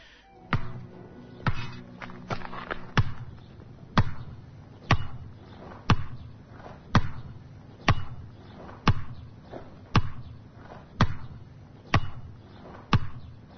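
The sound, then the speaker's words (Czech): A basketball bounces on a concrete outdoor court, each strike a sharp thud. After a few irregular bounces at the start, many hits follow at a steady rhythm of about one per second, heard alone. “je ritmičan zvuk košarkaške lopte kako udara o betonski teren kad god je lepo vreme na svim terenima u gradu”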